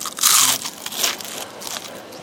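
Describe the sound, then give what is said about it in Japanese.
Crisp crunching from bites into maitake mushroom tempura: a few dry, crackly bursts, the loudest near the start, then softer crunches fading into quieter chewing, with no voices. “どうぞどうぞ、舞茸の天ぷらに。 ありがとうございます。やった。舞茸天。”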